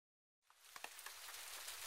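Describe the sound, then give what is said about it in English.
Rain begins falling after a moment of silence, a soft, faint hiss with a few scattered drop ticks that builds slightly and then holds steady. “Oh no! It's raining!”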